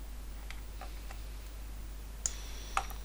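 Computer mouse clicks made while organizing photos in a photo app: a few faint ticks, then two sharp, distinct clicks near the end, all over a low, steady hum.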